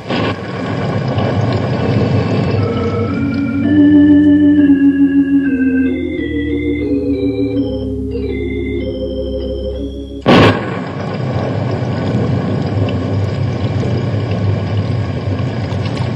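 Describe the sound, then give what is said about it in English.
Heavy rain pours down while a small boat is paddled through the dark, a dense, steady hiss. A melodic music cue interrupts it midway, and the rain resumes loud after a sharp thump. “Rain coming down harder than ever.”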